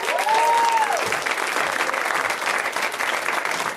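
A comedy club audience applauds a comic coming on stage with dense, steady, loud applause. A brief whistle rises and falls near the start, and the clapping stays even to the end.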